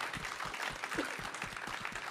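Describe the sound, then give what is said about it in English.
Audience applause honours a baseball Hall of Famer at a question-and-answer session: faint, steady clapping made of many quick, dense claps that continue evenly throughout, with no talk over it. “How about a round of applause for the Hall of Famer, Rick Hummel?”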